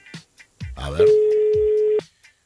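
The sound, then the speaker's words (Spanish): Ringing of an outgoing telephone call: one steady, even tone lasting about a second, framed by brief voices before and after. “nosotros ya estamos llamando a ver si suena y a ver si me atienden”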